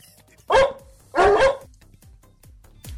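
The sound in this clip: A dog that won an ugliest-dog contest in California barks in two loud, rough bursts, the second longer than the first, with quieter gaps around them.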